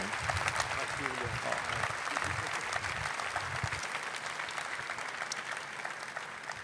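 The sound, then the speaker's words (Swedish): Sustained audienceal applause at a New Wine church gathering just after a prayer: a dense, steady patter of many hands that continues evenly for nearly seven seconds. “Ge henne en stor applåd.”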